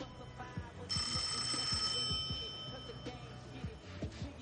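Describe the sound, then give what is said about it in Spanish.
A telephone rings in a phone booth, a bright, thin metallic ring that starts about a second in and lingers for roughly a second before fading, heard over a low rumbling background. “La cabina recibe una llamada.”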